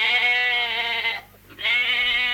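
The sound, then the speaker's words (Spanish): A sheep bleats twice: two long, loud, wavering calls rich in harmonics, separated by a short pause, with no other voices. “Oveja.”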